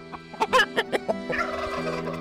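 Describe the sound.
Poultry calling inside a medieval peasant farmhouse where the family shares its rooms with hens and cats: a quick burst of several sharp, pulsing gobbling notes, then a longer warbling call that trails on at moderate loudness, with no talking.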